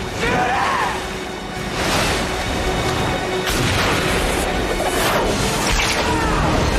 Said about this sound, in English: Or not, he shot Thomas Jane.